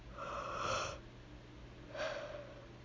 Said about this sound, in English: sorry, I'm yawning.